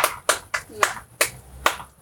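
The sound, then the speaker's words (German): Six sharp hand claps in an even, moderate rhythm, a brief round of applause over faint low background sound. “Ja, Applaus wäre richtig cool, wenn wir so zum Abschluss nochmal uns verbeugen könnten. Ja. Muss reichen. Ein Applaus.”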